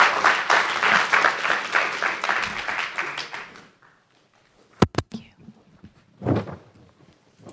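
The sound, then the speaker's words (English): Applause from a church audience welcoming a leader to the front, a dense, loud patter lasting several seconds before it stops abruptly. Near-quiet follows, broken by a few sharp knocks and one short muffled burst. “So I want you to make some noise and welcome her up as she leads us.”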